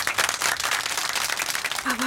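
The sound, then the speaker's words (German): Applause for the character Otto in a children's audio drama: a steady crackle of many hands clapping throughout, fairly loud, with a voice breaking in briefly near the end. “Bitte einen dicken Applaus für Otto.”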